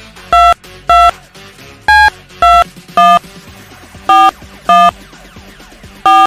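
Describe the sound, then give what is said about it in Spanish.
Telephone keypad tones ring out while a number is dialed for a live call. Eight loud, distinct beeps come at an uneven pace over a faint background, with no talking. “Ahí está, llamando en vivo los tickets para Charlie y Johairon.”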